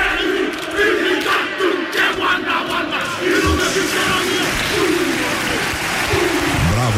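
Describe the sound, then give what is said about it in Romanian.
The All Blacks perform a haka war chant at the 2019 Rugby World Cup: loud massed male voices shout rhythmic chanted phrases over continuous crowd noise. “Asta este un haka executat de All Blacks la Cupa Națională din 2019”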